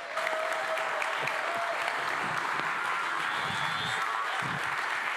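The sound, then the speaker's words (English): Steady applause from a church audience welcoming a new preacher onto the stage for his first sermon, a dense, even patter of many hands clapping throughout with no single voice standing out. “So would you please put your hands together and give a warm welcome to Ed as he comes up on the stage.”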